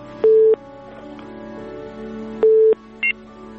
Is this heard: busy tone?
yes